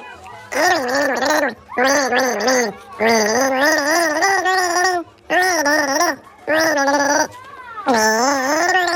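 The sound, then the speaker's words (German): A voice gargles the folk song Hänschen klein through a mouthful of water with the head tilted back, the melody coming out as bubbling, wavering tones in several loud phrases separated by short breaths. “Du nimmst einen Schluck Wasser in den Mund, legst den Kopf in den Nacken und versuchst, ein bekanntes Lied zu gurgeln.”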